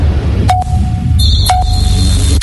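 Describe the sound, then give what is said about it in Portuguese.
Radio time-signal tones for affiliated stations: two short mid-pitched beeps a second apart, each trailing a lingering tone. A higher steady tone sets in between them and runs on over a low background hum, ending with a click. “Atenção, emissoras associadas, para o toque de 3 segundos.”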